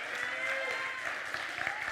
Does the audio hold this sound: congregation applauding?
yes